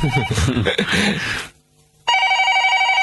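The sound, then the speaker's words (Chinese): A telephone bell rings loudly and steadily in the final second, following a stretch of talk and a brief silence. “哦，听电话先吓。”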